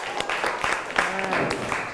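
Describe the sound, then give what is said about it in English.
A class claps hands during an English lesson, the irregular claps mixed under a voice talking. “Okay, everyone clap your hand for yourself. Good job.”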